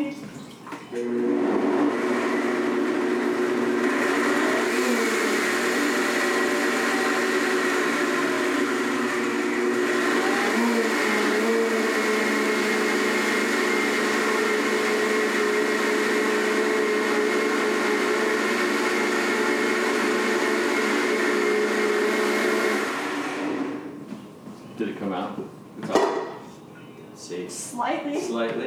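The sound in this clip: A blender runs on its sauces setting, blending a batch with two cups of water. The motor gives a loud, steady whir for about twenty-two seconds, then cuts off abruptly, followed by a few faint handling noises.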